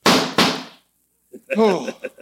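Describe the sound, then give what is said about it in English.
Two sharp gunshots ring out in quick succession in a radio drama, each with a short decaying tail, followed by silence and then a man speaking. “Oh, it can't be. I put 6 bullets into you.”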